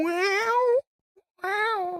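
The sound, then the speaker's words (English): Drawn-out, meow-like cries, two long wavering tones in a steady mid pitch, separated by a short silence with a faint click. “Sounds like a cat. That sounds dying. Like a cat. That's a cat.”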